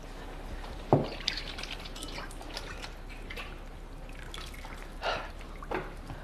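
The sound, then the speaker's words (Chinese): Faint drips and small splashes of water as hands are washed with soap in a basin, scattered irregularly over a low, steady background. “你去洗洗手，然后盆里有水，架子上有肥皂。”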